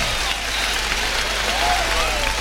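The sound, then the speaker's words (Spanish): A bullring crowd gives bullfighter Morante a strong ovation as he salutes with his montera in his right hand, a dense, continuous roar of clapping throughout. “el público ovaciona fuertemente a Morante, que está saludando ahí en la primera raya con la montera en la mano derecha.”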